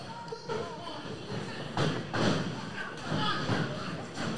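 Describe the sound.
Heavy thudding blows of a wrestler kicking an opponent in the back during a match, a few dull impacts landing amid steady crowd noise and voices.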